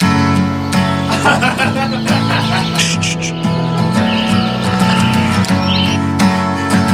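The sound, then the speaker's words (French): An improvised guitar piece of sustained, ringing chords and plucked notes, played continuously at an even, fairly loud level. “J'ai envie de vous improviser un petit morceau à la guitare. Alors attention, ne me jugez pas, c'est une improvisation.”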